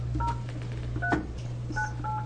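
Touch-tone dialing of a phone number to bring a caller into a legislative hearing: a few short, clear electronic beeps spaced unevenly apart over a steady low hum, with no speech.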